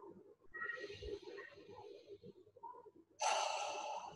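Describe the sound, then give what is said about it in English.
Deep breathing during a guided visualization, a soft airy breath followed by a louder, longer rush of air near the end. “Nice deep breath.”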